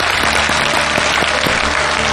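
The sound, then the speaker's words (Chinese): Loud, dense applause from an audience at a live event welcoming guests, a steady unbroken wash of clapping that runs the full length without a pause. “同样把掌声送给他们”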